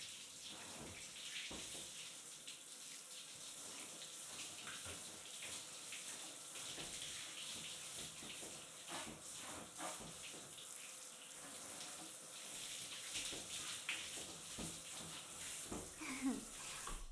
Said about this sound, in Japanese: 全部流して洗い残したところを洗ってあげる。たっぷりもみ洗いしてあげるね。